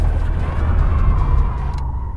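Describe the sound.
A car drives with loud, steady engine and road rumble that eases slightly in the last moment.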